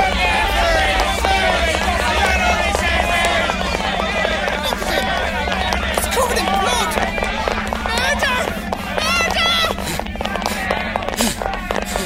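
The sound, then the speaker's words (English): Running footsteps of a man fleeing a dozen pursuing Irishmen through a London street after a murder, steady and continuous beneath a dense, loud clamour of crowd voices that fills the whole clip. “And so Smith ran, a dozen Irishmen hot on his heels, and poor Charlotte's blood still warm on his hands.”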